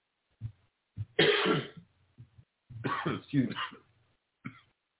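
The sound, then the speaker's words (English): A person choking coughs and clears their throat in a series of rough bursts, two long raspy spells among shorter ones, moderately loud with no words spoken. “Excuse me, I'm choking.”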